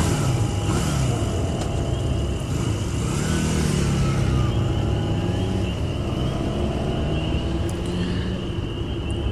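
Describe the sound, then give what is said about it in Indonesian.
Motorcycle accelerating on a road as the throttle is opened: a loud, continuous engine drone whose whining harmonics climb in pitch midway, with no talk. “Tanpa pikir panjang, aku langsung menancap gas lagi.”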